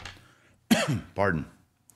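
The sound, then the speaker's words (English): Two harsh, throaty coughs in quick succession, the second a little longer, loud against an otherwise quiet background. “See that cough's coming back.”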